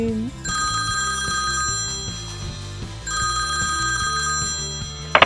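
A telephone rings with a bright, high electronic trill in two long bursts separated by a short pause, over a low, steady, rhythmic pulsing in the background.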